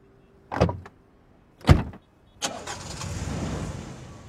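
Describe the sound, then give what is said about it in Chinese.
Two people getting into a small car. Two separate door thuds sound a second apart, then the engine starts and runs in a steady hum to the end. “等两人上了小汽车，影佐才从前座转过头来表达自己的慰问。”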